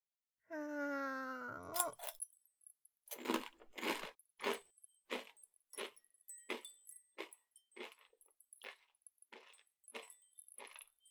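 Loud, crunchy biting and chewing of a mouthful of food. A brief voiced hum comes first, then many sharp, irregular crunches follow one after another for several seconds.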